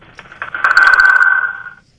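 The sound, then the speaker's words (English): A telephone rings on a radio station's call-in line: one warbling electronic ring of about a second, steady and fairly loud, fading out with no talk over it. “phone lines are ringing”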